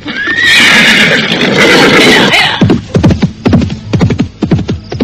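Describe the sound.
A jet-black horse neighs loudly in a long, high, wavering whinny, followed by a run of short, rhythmic pulses.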